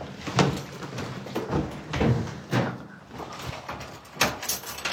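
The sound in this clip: A door is closed and locked: several sharp thumps and clicks, some louder than others, with faint rustling between them.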